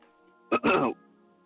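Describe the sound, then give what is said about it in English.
Throat clearing during a sports league interview: one short, rough burst in two quick parts, heard alone against a quiet background. “Excuse me. I got a little something in my throat there.”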